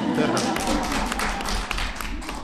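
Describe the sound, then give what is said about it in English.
Audience applause at a talk on healthcare: dense, steady clapping that fills the whole stretch at an even level, with no clear pauses. “I don't mind applause.”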